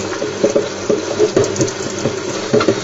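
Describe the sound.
A pot is washed in a sink with dish soap: tap water runs steadily, and a few dull knocks and clatters come as the pot is scrubbed and turned in the hands.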